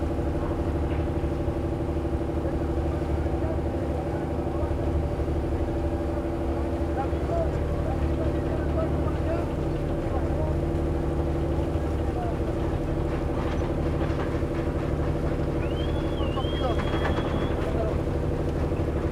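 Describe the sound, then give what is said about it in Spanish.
Steady engine drone aboard a Yugoslav merchant container ship carrying about 3,500 containers: a constant low rumble with faint higher tones, unchanging throughout. “Este barco mercante trae un total de 3.500 contenedores, artefactos eléctricos, computadores, ropa, electrodomésticos. La tripulación de este barco de Yugoslavia. Los yugoslavias, los croatas a bordo de esta nave. A bordo de este barco.”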